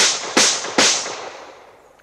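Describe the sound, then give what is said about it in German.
Two sharp gunshot cracks ring out in a radio drama. Each is a sudden, bright burst with a long fading tail, and the tail of an earlier shot is still dying away at the very start. “Ich schieße. Stopp.”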